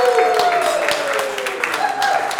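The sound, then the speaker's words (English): Applause from an audience at a cultural event in Amsterdam, a steady dense wash of clapping that holds at an even level for a couple of seconds, with a voice faintly mixed in. “Together with me, I want to have a big applause to the founder of this movement, Luca!”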